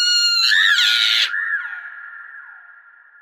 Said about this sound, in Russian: чуть только он выстрелил, ведьма с визгом грохнулась с дерева.